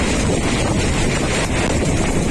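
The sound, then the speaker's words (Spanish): Strong wind gusts of a heat burst in Espinardo, Murcia, reaching over 80 km/h, give a loud, constant roaring rush with buffeting turbulence and no pauses. “Reventones como el que estaban escuchando en la zona de Espinardo en Murcia”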